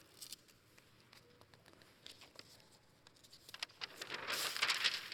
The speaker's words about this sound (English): I'm going to draw this.